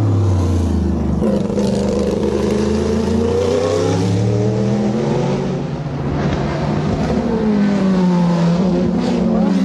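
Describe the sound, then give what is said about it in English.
A Sauber C9 Group C race car's big V8 engine roars, loud and deep. The throbbing note keeps rising and falling in pitch as the engine revs and pulls, and it carries on continuously throughout. “those are really cool to hear in a Group C context because everything else is like very high pitched and racy, and those things sound like big honking V8s.”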